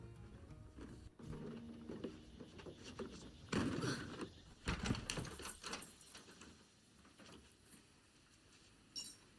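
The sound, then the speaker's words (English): Front door of a remote country house being opened, with bursts of metallic clinking and rattling latch clicks in the middle, then a quiet stretch and a single sharp click near the end. “She carries the cleaning equipment from the van and drops it on the porch, then opens the front door.”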